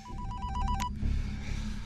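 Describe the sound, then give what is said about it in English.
A telephone rings with a rapid, trilling electronic bell in one burst of fast pulses, fairly faint, then stops abruptly, leaving quiet background noise. “switches off the news and answers his phone.”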